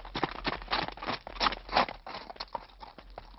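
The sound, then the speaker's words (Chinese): Horse hooves clip-clopping in a quick, steady rhythm of many sharp, clattering beats, louder through the middle, with no voices. “你们听啊，我听见后面有马蹄声，哎，是不是啊？”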